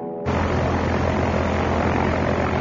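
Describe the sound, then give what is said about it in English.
A propeller aircraft engine drones as a small plane approaches to land on a sand airstrip at a remote fishing lodge on North Knife Lake. A brief quieter moment opens into a loud, constant hum with a low tonal throb. “As they zero in, everyone's mind is on the landing and what it will tell Arnie about Doug's sand airstrip.”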